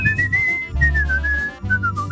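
A man whistles a little tune alone, a clear melodic line gently wavering and dipping in pitch through a few short phrases over a low background hum.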